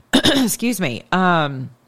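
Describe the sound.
A person clears their throat with a few loud, voiced, rasping bursts, heard alone with no other sound.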